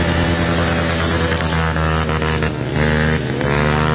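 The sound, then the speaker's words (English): Modified ride-on lawnmowers, built to reach around 60 km/h, race around a dirt track at a lawnmower racing championship: a loud, buzzing engine drone that shifts in pitch and briefly dips before surging again. “ride-on mowers have been modified to reach speeds of around 60 kilometres an hour to race around a dirt track”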